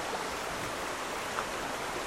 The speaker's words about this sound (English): Do you remember the water? This is that water. When the ice melts, it cuts through the base and it creates this river.